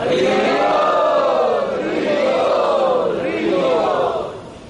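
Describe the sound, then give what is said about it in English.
A crowd loudly chants "Hari Bol" in unison to welcome special guests, a sustained roar of many voices whose pitch swoops up and down before tapering off at the end. “And let us welcome all of these special guests by very loudly chanting Hari Bol.”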